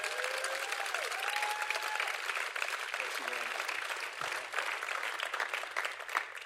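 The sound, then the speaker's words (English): Audience applause welcomes a speaker: dense, steady clapping from a crowd that holds at an even level from start to finish. “I want you to put your hands together. Welcome Jeremy Courtney as he comes.”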